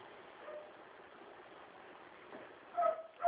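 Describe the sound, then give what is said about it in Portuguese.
A dog barks in short, yipping bursts near the end, over a steady low background hiss that is otherwise quiet. “Tem cachorro latindo, tem gente fazendo barulho.”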